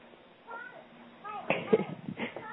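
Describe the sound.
A cat meows a few times amid voices and background noise, its short, tonal mewing calls rising over the chatter.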